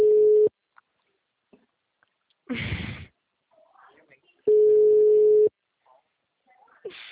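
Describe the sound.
Ringback tone of an outgoing phone call: two steady mid-pitched beeps about four seconds apart, the first cut short at the start. A short burst of noise and faint rustles fill the gap between them.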